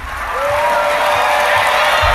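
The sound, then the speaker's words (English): An audience applauds as four candidates are welcomed onto a debate stage. The clapping is loud and dense, swells at the start, then holds steady throughout. “please be respectful of the candidates and hold your applause until the conclusion of the debate, except now as we welcome our 4 candidates to the stage”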